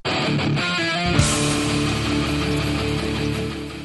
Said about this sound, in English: This is one of 48 songs that Selganik offered to the visitors of the 9 identical online worlds that he created. Each world had the exact same music, all unknown songs by emerging artists.